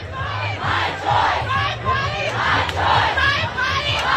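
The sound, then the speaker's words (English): Crowd cheering and protesting in front of the US Supreme Court after its ruling overturning the constitutional right to abortion; many voices shout and yell together in a loud, continuous, surging roar. “The announcement was met in front of the court with cheers and protests.”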